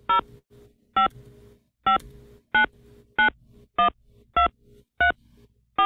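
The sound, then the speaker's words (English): Touch-tone keypad beeps as a phone number is entered into an automated phone menu, eight short, even tones pressed at a steady pace with nothing else around them. “To use a phone number, press 2. Please enter the 10-digit phone number,”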